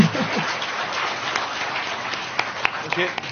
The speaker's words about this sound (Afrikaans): ek wou juist gevra dat julle moet vir my hande klap.